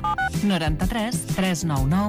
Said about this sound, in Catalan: Truco a Radio Taxi Catalana?